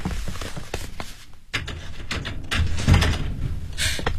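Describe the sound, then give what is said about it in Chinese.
A door is opened as a neighbourhood committee official calls on a resident: a sudden clunk, then rattling and handling noise, with a louder knock-like thud later. “你开门呐。”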